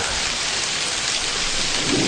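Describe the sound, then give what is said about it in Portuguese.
Heavy rain pours down in a loud, even hiss of countless drops that holds steady throughout, with no voices. “É só a chuva chegar que eu lembro de você. Se vai chover, bom dia,”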